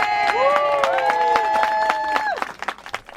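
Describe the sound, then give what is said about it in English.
A standing ovation for a decorated WWII bomber pilot on the path at Juno Beach, Normandy, France, in June 2019: many loud claps with voices cheering over them, thinning to a few scattered claps at the end. “That was some of the audio I recorded of Bill in June of 2019 in Juno Beach, Normandy, France. He was receiving a standing ovation as he strode energetically along the path.”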